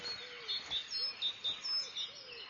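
Cranes calling at their breeding ground, where the young cannot yet fly: a series of short, thin, high-pitched chirps at a low level, separated by brief gaps.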